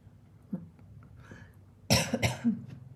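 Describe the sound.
Harsh coughing from someone with a piece of coconut stuck in the throat: a short cluster of a few rough, forceful coughs after a quiet stretch, with no speech.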